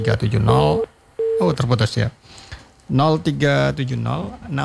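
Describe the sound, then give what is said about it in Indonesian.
Steady tone on a studio telephone line, like a busy signal, heard as two short beeps beneath ongoing talk. “kita terima dulu respon pendengar melalui telepon studio”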